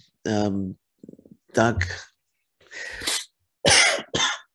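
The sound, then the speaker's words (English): Coughing in a series of several harsh, throaty bursts separated by short pauses, fairly loud and heard on its own without talk. “Sorry, I got a little bit of cough there.”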